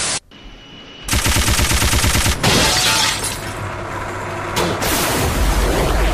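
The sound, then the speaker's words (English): Machine gun fire in a video game, heard as long, loud, sustained bursts separated by a few brief gaps. “Machine gun.”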